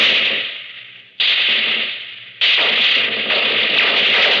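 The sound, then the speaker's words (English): Automatic fire from a Bren gun, a small, low-cost World War II weapon, sounding as dense, harsh, continuous crackling in a few sustained bursts. Each burst starts abruptly and fades slightly before the next loud onset. “First, the Bren gun. It's a small automatic weapon made at low cost but very effective.”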